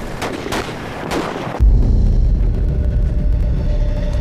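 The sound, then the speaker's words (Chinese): Gunshots ring out as scouts clash with the enemy, a few sharp cracks over background noise, then a sudden, sustained loud roar of low rumbling. “我们刚刚听到了枪声，应该是我们派出去的斥候与敌人遭遇了”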